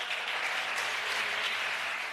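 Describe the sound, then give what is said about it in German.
Sustained applause from governing parties in a parliament chamber after a vote passes an independence referendum law, a dense, even wash of many hands clapping at steady loudness with no voices above it. “Minutenlanger Applaus der Regierungsparteien, die schließlich noch die katalanische Hymne anstimmten.”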